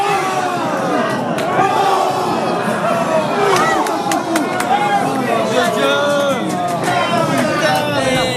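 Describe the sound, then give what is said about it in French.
A bar crowd sings the French national anthem in chorus in front of screens during a France football match, a loud mass of voices that stays dense and continuous with occasional sharper shouts. “Une Marseillaise reprise en chœur devant les 3 écrans du bar avec un léger décalage de quelques secondes pour la télé en terrasse.”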